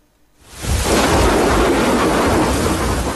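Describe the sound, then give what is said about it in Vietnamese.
Rolling thunder and heavy rain from an early rainy-season storm over the Ea Súp border area of Đắk Lắk province. After a brief quiet moment, a loud, deep roar swells and holds as a thick, sustained rumble mixed with the hiss of rain. “Đầu mùa mưa, những trận dông kèm sấm chớp rền vang trên nền trời biên giới Esup tỉnh Đắk Lắk.”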